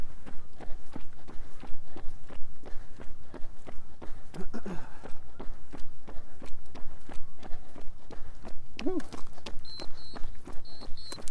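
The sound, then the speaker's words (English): People's footsteps while walking, landing in an even, steady rhythm with many steps throughout and a brief high chirp near the end. “Walk. I'm curious to see what our pace is today.”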